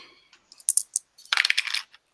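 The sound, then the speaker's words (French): Two dice are rolled during a tabletop role-playing game. A few sharp clicks lead into a bright burst of rapid, rattling clatters as they tumble and settle on the surface. “Ok, donc je vais lancer 2 dés.”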